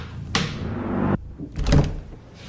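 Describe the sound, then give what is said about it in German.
A heavy security door being opened: a loud, low clunk starts a sustained rushing noise that cuts off, followed by a second dull thump. “öffnet sie eine schwere Sicherheitstür und ist angekommen”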